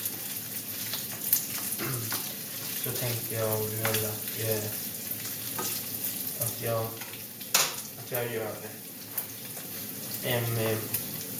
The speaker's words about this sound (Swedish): jag lagar snabbmakaroner med miniskivad bacon